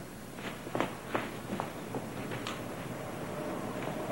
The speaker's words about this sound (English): He walks toward a window, then stops several inches from it.